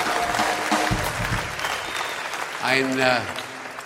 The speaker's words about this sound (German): wir haben natürlich mit diesem Applaus gerechnet und haben selbstverständlich eine Zugabe für Sie, das ist ja klar.